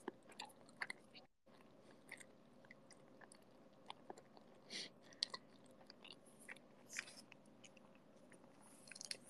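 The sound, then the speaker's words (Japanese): Someone chews food with many small crunches, bites and soft wet squishes at an irregular pace. The sounds are faint and there is no talk. “待って、今、もぐもぐ中。”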